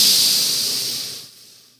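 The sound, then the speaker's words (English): A single inhaled breath during a guided breathing exercise: a soft, airy hiss that starts fullest, thins gradually and fades out over under two seconds, heard alone. “And exhale, inhaling,”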